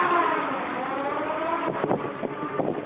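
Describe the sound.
A car engine drones during a mountain road test run, holding a steady, muffled roar before a few sharp revving bursts toward the end.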